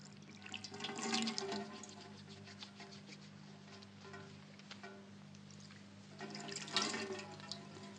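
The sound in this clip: Water being poured, with a splashing burst early on and a second burst near the end over a steady low hum, no voices.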